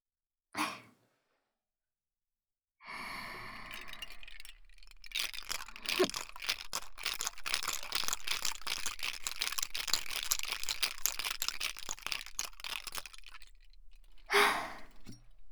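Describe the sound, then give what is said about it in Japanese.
Ice rattles inside a cocktail shaker in a dense, continuous shaking that runs for about eight seconds. A brief soft rustle comes before it and a short noise after. “それでは再度シェイクさせていただきます。”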